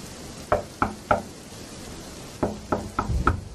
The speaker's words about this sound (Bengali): কে যেন দরজায় নক করছে না কান পেতে শুনে দেখলাম হ্যাঁ ঠিকই তো কে যেন নক করছে